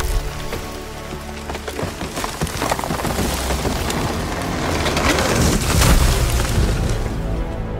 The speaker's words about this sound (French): qui taille un tronc d'arbre pour pouvoir s'allumer un feu